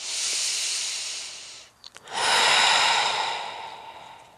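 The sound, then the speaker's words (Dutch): A deep breath is drawn in and then blown out during a guided relaxation exercise. A soft airy inhale is followed by a brief pause and then a longer, stronger breathy exhale that slowly fades. “En dan is het nu weer tijd om terug te keren En we gaan diep inademen en we blazen alles uit.”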